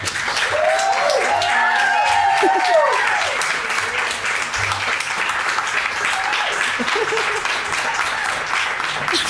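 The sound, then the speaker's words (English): Audience applause for a guest chef at a live event in an Italian restaurant: a long, steady round of clapping with a few brief voices rising over it early on, then easing slightly toward the end. “Okay, can I get a round of applause? I think it's appropriate that yours was more robust.”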